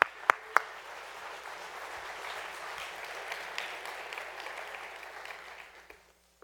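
An audience applauds to welcome a couple onto a stage: a dense, steady wash of clapping that holds for about six seconds, with a couple of sharp individual claps at the start, before tapering off at the end.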